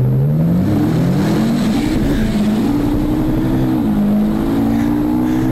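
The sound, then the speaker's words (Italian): A Ferrari engine roars loudly and without a break, its pitch climbing steadily as the revs build, dipping briefly near the end, then holding high. “Questo è il rombo di una Ferrari.”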